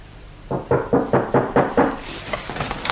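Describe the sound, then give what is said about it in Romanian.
Hard, rapid knocking on a door, pounding hard enough to break it: about seven loud, heavy knocks in a steady rhythm, followed by a few fainter taps. “Nu mai bate așa că spargi ușa.”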